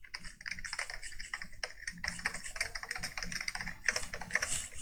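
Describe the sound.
Rapid typing on a computer keyboard while an address is entered into a server terminal to reach a router: steady, quiet, dense clicking keystrokes with no voices.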